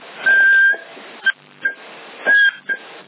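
Whistling into a handheld CB radio microphone in Sassari, heard over the radio link: five high whistles, two longer and three short, thin and band-limited with steady hiss between them.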